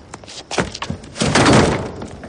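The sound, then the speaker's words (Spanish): A pistol is tossed into a metal dumpster on a dark street. A few sharp, hollow thuds are followed by a longer, noisy metallic rattle. “Tira la pistola a un contenedor.”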